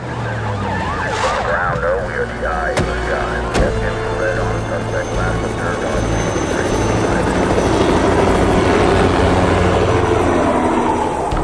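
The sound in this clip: Helicopter flying overhead as police cars set up a perimeter blockade in city streets, a loud, steady rotor roar filling the whole clip, with tonal siren-like wails mixed in.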